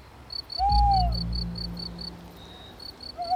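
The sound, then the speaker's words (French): Tawny owl hooting at night: one drawn-out, wavering hoot, then another hoot starting at the end. A fast, regular, high insect chirping runs throughout. “Alors, après la tombée du jour, on entend même parfois la chouette hulotte. Vous savez, c'est celle dont on fait retentir le ululement dans les films ou podcasts pour signifier qu'on est la nuit.”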